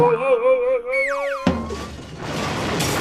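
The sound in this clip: A cartoonish effect of someone on a trampoline jumping into a shelf: a springy tone slides sharply downward, then a single hard thud lands near the midpoint, followed by a rough, rattling noise.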